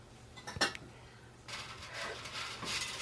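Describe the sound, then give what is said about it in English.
Scraping of a utensil against a plastic bowl while stirring eggs into mincemeat: a few sharp clinks early on, then faint, continuous rasping scrapes for the rest. “I'm still not over the scraping on the plastic bowl.”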